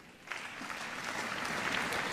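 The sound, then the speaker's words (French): An audience stands and applauds for a woman's 70th birthday, a dense, steady patter of many hands that starts after a brief hush and builds slightly, fairly soft overall. “c'est de vous lever pour ses 70 ans, et de l'applaudir avec moi.”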